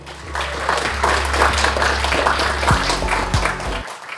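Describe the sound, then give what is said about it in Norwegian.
A jingle played by the host: loud, dense clapping and applause over a sustained low bass tone, running steadily before cutting off abruptly near the end. “Ups, ja, det går litt sånn her og der med disse jinglene mine I dag, men sånn det.”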